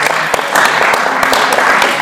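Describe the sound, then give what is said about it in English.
Audience applause at a talk: a loud, dense patter of clapping with several sharp individual claps standing out, holding steady to the end. “Give this man a clap. Give him a clap. Come on.”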